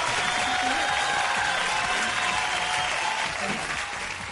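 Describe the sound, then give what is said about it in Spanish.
Applause from a crowd: steady, dense clapping that holds at an even level and eases off slightly near the end. “Démosle un aplauso a Hank.”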